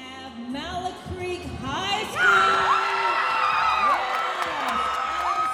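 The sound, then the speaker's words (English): Spectators at a student recycled-fashion runway show in a mall cheer, whoop and yell. The cheering swells into a loud, sustained roar mixed with voices. “Spectators cheered as seven students walked the runway for the seventh Recycle the Runway show at North Lake Mall.”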